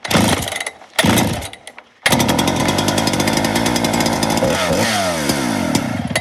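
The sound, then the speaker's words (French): A large professional felling chainsaw runs after a clutch repair. The engine is loud and buzzing, revs unevenly, cuts out briefly, then roars back and holds steady with a short pitch dip near the end. “Ça, c'est pas de la petite tronçonneuse, ça fait déjà partie des grosses machines. Donc ça, c'est plutôt pour de l'abattage.”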